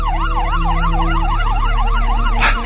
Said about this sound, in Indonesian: Sampai tiba-tiba saja terdengar suara ambulans mendekat.